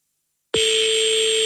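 A steady telephone ringback tone on an outgoing call starts abruptly after silence and holds one continuous, bright, slightly buzzy pitch with no break.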